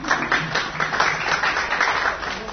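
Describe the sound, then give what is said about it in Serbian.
An audience applauds as a man is introduced to speak. Many hands clap in a dense, even patter with slight swells, lasting a few seconds with no voices on top. “Aplauz za Đekića.”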